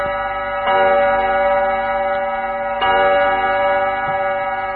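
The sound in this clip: A Nepali radio time-check jingle with a clock ticking under it: a loud, sustained tonal bed, with two strong chime-like accents about two seconds apart and a fainter third one near the end.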